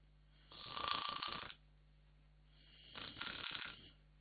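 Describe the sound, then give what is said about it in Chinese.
A man asleep slumped in a chair snores twice: two long, rasping snores separated by a quiet pause, the second slightly softer than the first. “一听啊，有打呼噜的声”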